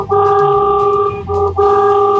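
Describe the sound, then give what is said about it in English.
A county road-marking truck sounds its air horn in a loud, brassy, multi-tone blare. A long blast is followed by a couple of shorter honks with brief breaks between them. “can we get a honk of that horn”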